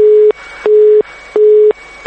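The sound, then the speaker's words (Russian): Rapid telephone busy beeps on a factory's line, cut off for unpaid bills: a mid-pitched tone pulsing on and off in even short bursts, three full beeps and the start of a fourth. “Телефон завода отключен за долги.”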